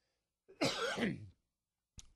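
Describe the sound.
A rough cough and throat clearing caused by inhaled dust. One harsh, voiced burst lasts under a second and is followed after a pause by a brief, fainter sound.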